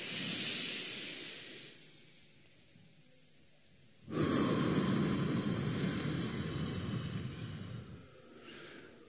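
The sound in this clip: Slow breathing during a relaxation breathing exercise: a soft, airy exhale fades away, then after a quiet pause a long, louder rush of breath streams out steadily for several seconds.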